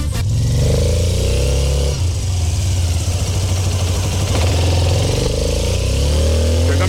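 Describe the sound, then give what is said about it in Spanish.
A large motorcycle engine revs in a few bursts. The throttle rises to a higher-pitched roar at the start, settles into a rough, throbbing idle, then climbs again at the end. The engine is loud throughout. “Eso es una tremenda moto, señores. Esto es un espectáculo y suena así”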